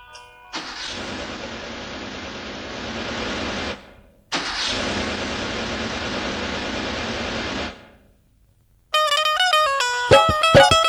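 A car engine is started and driven, heard as two sustained stretches of steady rumbling noise, each lasting a few seconds and cutting off abruptly, followed by music.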